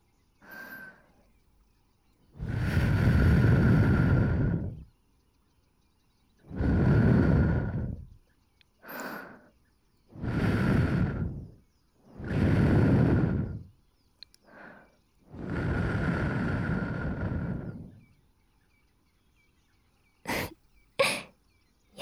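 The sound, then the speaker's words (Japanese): Gentle blowing into the left ear during an ASMR ear-cleaning session: five long, soft, airy breaths and two short puffs, then a couple of sharp clicks, with no talk. “こちらもお掃除の前に、軽くお耳をフーフーさせていただきますね。”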